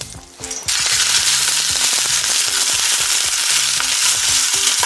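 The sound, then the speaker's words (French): Pork belly pieces brown in a cooking pot with a loud, steady sizzle and many crackling pops. The sizzle comes in after a brief quieter opening and then holds for several seconds without talk. “Mes viandes sont bien rissolées. Je vais les retirer et je vais attaquer les saucisses.”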